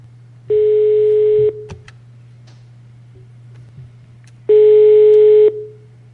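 A telephone ringback tone sounds while a call is placed: two steady buzzing tone bursts of about a second each, separated by a few seconds of pause, over a constant low hum on the line.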